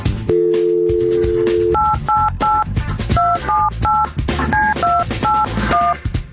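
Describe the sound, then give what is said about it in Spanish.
A telephone number is dialed: a steady dial tone holds for over a second, then gives way to many short touch-tone beeps in quick, uneven succession at varying pitches. “Listo, va, márcale, márcale. Ahí va.”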